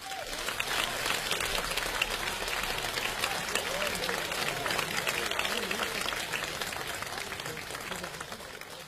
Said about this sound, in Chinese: 接下来我们用热烈的掌声有请全国著名的相声表演艺术家李金斗、王文林